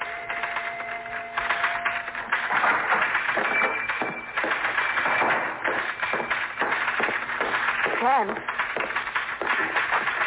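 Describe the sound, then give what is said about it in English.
A typewriter clatters at a newspaper, many rapid mechanical taps running steadily under people talking. “I'm beginning to feel jealous of that typewriter.”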